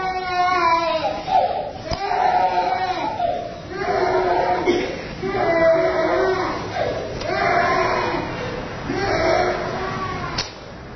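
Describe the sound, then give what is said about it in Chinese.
A small child cries in many repeated, drawn-out wails that swell and fade in a steady rhythm with only brief breaks between them. “说的这个小朋友他哭了啊”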